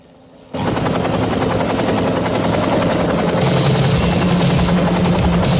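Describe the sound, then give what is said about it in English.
A helicopter's rotor and engine start abruptly after a brief quiet moment. The loud, steady, throbbing chop then holds at an even level to the end. “Yeah, that's a helicopter.”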